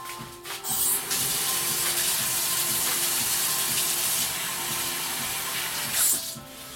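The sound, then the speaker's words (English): Water runs from a tap as oily hands are washed under it, a loud, continuous hissing rush that holds steady throughout, with brief changes in the flow near the start and end and no talk. “Okay, so now I got oily hands, I gotta wash them, hang on.”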